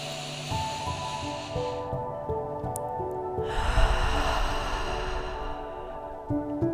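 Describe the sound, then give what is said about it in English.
A slow deep breath during a guided relaxation exercise: two long, soft breathy hisses, in and then out, over quiet sustained music. “Another deep breath.”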